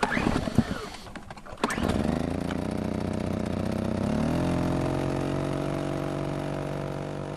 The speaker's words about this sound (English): Generator on, traps set.